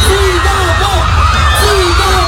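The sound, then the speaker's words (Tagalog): Families shout and cheer along a street in Puerto Princesa City as a celebrity motorcade passes, with overlapping high voices and whoops over a steady low rumble. “Umalingaw-ngaw sa kalsada ang sigawan ng mga pamilyang Palawenyos nang makita ang hari ng aksyon sa ating henerasyon na si Coco Martin”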